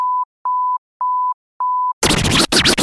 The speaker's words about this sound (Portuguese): Atenção, emissoras, para o toque de 5 segundos.